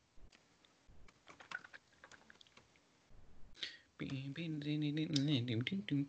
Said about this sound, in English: I typed it in the thing so we can just look at it later.